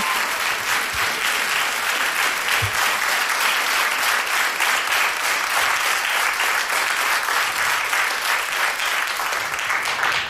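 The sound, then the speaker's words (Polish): Applause from an audience as a guest is introduced: steady, dense clapping that holds at an even, fairly loud level throughout with no pauses. “Sama. Brawa!”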